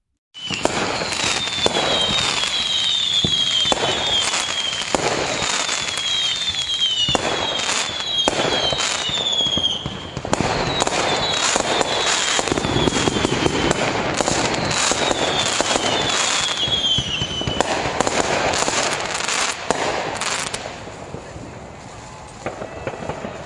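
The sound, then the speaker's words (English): Fireworks at an annual town celebration, with dense, continuous crackling and popping bursts for over twenty seconds, threaded with thin, high whistling streaks from rising shells, fairly loud throughout. “Thunderous sounds filled the sky. It was the annual celebration in the heart of the town. But something had gone wrong. One of the fireworks had set a small shack near the park ablaze.”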